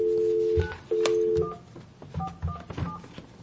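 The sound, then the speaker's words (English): Touch-tone telephone dialing a number: a steady two-note tone that breaks off once and resumes, then a few short, clear electronic beeps at a quick, uneven pace. “Or should I not dial 1? Don't dial the 1. Okay. It's just 9546.”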